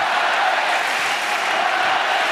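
The Roland-Garros tennis crowd on match point for Hugo Gaston against Gaël Monfils, with Monfils serving, makes a loud, unbroken wash of crowd noise that stays even throughout.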